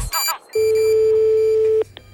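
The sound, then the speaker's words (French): Outgoing telephone call ringback tone: one long, steady, mid-pitched electronic tone lasting over a second, preceded by a brief noisy burst and followed by a faint click. “Actuellement, nous sommes en train d'appeler Monsieur Villadar, Jean, ainsi que Monsieur Villosset Célestin”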